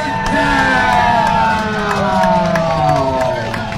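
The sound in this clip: A crowd cheers loudly and steadily at a high school football game involving Pine Ridge, with whoops and shouting voices near the sidelines rising and falling throughout.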